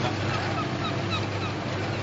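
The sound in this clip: Steady engine drone of a research ship setting out to sea from a cloud-covered Scottish bay, a constant low hum under a broad, even wash of noise, with no voices.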